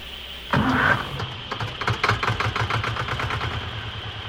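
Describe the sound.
A car engine kicks in abruptly and settles into a steady low rumble with a regular pulsing beat that continues to the end, heard alone without voices.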